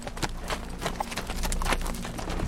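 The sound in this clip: Horse hooves clip-clop in a quick, steady run of many sharp strikes over a low, even hum, with no break through the whole stretch.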